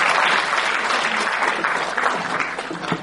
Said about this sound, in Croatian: Pozdravimo ga aplauzom.